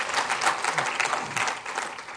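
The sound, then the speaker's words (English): Applause from a church audience during a worship service: a steady, dense wash of many hands clapping that fills the whole short stretch without a break. “So shall we give him a big round of applause?”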